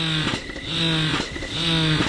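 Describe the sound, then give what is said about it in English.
An electric breast pump running after being assembled, giving a loud, steady motor hum with repeating suction cycles, each under a second long. “While I met with her, she assembled one of her pumps and started it up.”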